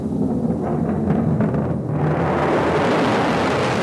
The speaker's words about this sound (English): Four, three, and fire defensive missiles based in California and Alaska. Ignition.